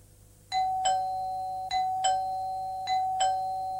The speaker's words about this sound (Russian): Звонок в дверь.